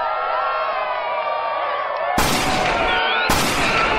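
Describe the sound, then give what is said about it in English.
Gunshots fired at a car in a motorcade at Dealey Plaza on a November day: two sudden, loud, harsh blasts that ring on briefly, cutting through a steady crowd-like din. “Someone's shooting at us!”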